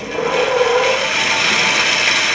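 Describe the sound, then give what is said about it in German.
Saw cutting through wooden boards in a carpentry workshop, a loud, continuous rasping whine with no pauses, heard alone with no talking. “Aber jetzt säge ich die Bretter zu.”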